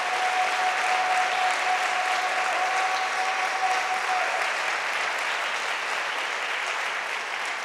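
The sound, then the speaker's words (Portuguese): A church audience applauding during an inauguration service, with dense, even clapping that holds strongly for several seconds and eases slightly toward the end. “Vamos aplaudir ao Senhor. Aleluia.”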